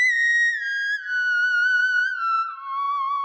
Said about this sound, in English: So this is the sound of the theremin.